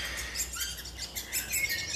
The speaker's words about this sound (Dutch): Deze jonge spechten die we nu horen, die zijn helemaal niet bang, maar gewoon ongeduldig. Ze zitten in het hol te roepen naar de ouders of ze een beetje op willen schieten met dat voedsel.